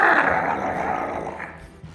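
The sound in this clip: A voice imitates a strange alien growl from a creature hit by a sizzling beam in a tabletop role-playing game: a raspy, throaty snarl held for about two seconds, loud at first and easing slightly toward the end.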